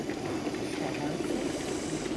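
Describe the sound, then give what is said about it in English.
Steady bubbling hiss from an oxygen bar machine pushing air through a peppermint mixture, a continuous, even wash of gurgling noise with no pauses and no voices. “Wow, the oxygen machine is bubbling away now.”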